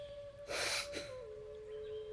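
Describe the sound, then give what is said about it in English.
A single demonstration breath for a breathing exercise, a brief breathy rush lasting about half a second near the start, heard over a faint steady hum that carries on to the end. “So just follow me when I do the first breath and then we'll do it together for 8. So here's a demonstration.”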